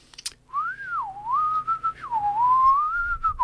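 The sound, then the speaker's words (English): A person whistles a wavering tune while walking into a forest: one long, loud melodic line that swoops up and down in pitch, heard alone with no talk. “whistling along he went.”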